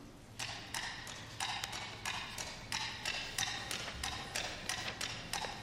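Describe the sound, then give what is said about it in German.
Coconut shells knocked together imitate a horse's hooves clip-clopping as a cowboy rides through the desert, giving many crisp, hollow taps in a steady, even trotting rhythm at moderate loudness. “und zwar ein Pferd, und das hört sich so an.”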